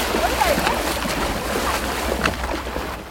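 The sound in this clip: Water splashes and sloshes as two women wade into the Oslofjord for a winter swim in falling snow and sub-zero cold, a continuous churning wash with voices talking over it.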